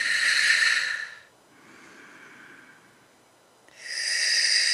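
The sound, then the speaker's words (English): A person breathes slowly and audibly during a relaxation exercise, with no talking. A loud, hissing exhale is followed by a softer, drawn-out inhale, then another long, hissing breath out. “When I breathe out,”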